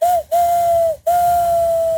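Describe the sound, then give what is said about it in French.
A voice imitates a train whistle using hands and mouth: three steady, pure whistle tones, a short first one and two longer ones, each separated by a brief break and sagging slightly in pitch as it ends. “C'est le train. Ah, ça fait bien le train aussi. Ouais, ah bah, oubliez tout, je sais faire le train.”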